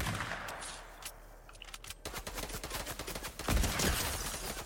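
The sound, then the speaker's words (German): Faint gunfire in a shooter video game's zone wars match during a headshot, with many quick sharp cracks in rapid bursts and a heavier hit near the end. “Das war gerade ein Headshot”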